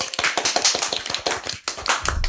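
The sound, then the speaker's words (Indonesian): Students and teachers applauding at a school event, a small group producing distinct, uneven claps in a quick, irregular patter that dips briefly before picking up again. “Kita kasih tepuk tangan nih.”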